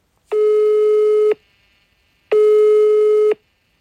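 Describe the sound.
A telephone busy tone sounds on a call: two identical steady, mid-pitched beeps, each about a second long and separated by a second of silence, loud and alone without voices.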